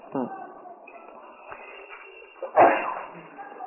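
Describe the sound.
One sharp, sudden sneeze bursts out near the end, during a religious lesson. It stands above a faint, muffled background with a softer breathy sound earlier on.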